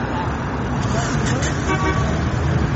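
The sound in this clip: Car horns toot in congested road traffic in Uzbekistan, where crowds from the villages wait for gas during a shortage. Short honks sound over a constant wash of engine and roadway noise.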